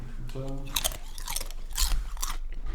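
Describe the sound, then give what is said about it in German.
Someone chewing and crunching food while eating, with moist, crackly bites and mouth noises repeating steadily, interrupted briefly by a short vocal sound. “Wahrscheinlich nervt es auch alle, dass ich die ganze Zeit esse, aber das macht so, das macht so lecker.”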